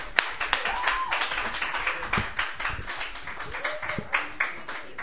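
Audience applause at a Sunday night open mic, welcoming a first-time performer to the stage: a dense, steady patter of many hands clapping that carries on without a break from start to finish.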